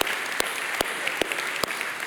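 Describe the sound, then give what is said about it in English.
Audience applause, a thick, continuous wash of clapping from a crowd, with one louder, sharper clap cutting through at an even, regular beat. “Can we give him a round of applause for that?”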